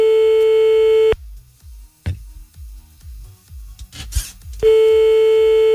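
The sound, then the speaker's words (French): Ringback tone heard while an outgoing phone call connects: a long, steady, mid-pitched tone, then a pause of several seconds filled with faint clicks and line crackle, then the same tone again. “Allez, on se fait encore un petit appel, un petit dernier là, oui, avant de partir. Soyons fous. Allez, hop là, c'est parti.”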